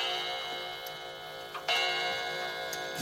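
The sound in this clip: A steady tick-tock from a clock with a clock case, even and regular throughout, with a brief soft knock near the middle.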